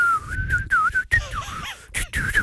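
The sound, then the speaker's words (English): A person whistling while trying to smile, a wavering high tone that keeps breaking off into short gaps and stuttering restarts before the tune resumes. “Whistling's a great one because you start smiling. Yeah. As soon as you start smiling, yeah, you can't whistle.”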